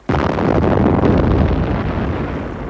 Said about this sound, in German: Die roten Zungen der Geschütze an Bord des Walross leckten zu unserem Schiff. Das Gebrüll ihrer Rohre zerriss die Nacht.